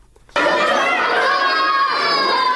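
Children playing during a short school recess: a loud, dense chorus of high-pitched shouting and chatter that bursts in abruptly after a brief quiet opening and then continues steadily.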